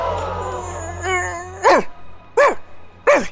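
A dog barks three times, evenly spaced: short, loud, mid-pitched yelps, each rising then falling, with quiet gaps between.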